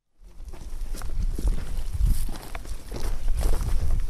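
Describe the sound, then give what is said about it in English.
Footsteps walk through an olive grove at a frontline position in Syria: a steady run of many crunching steps, fairly loud and continuous throughout, with no voices. “We're walking through an olive grove.”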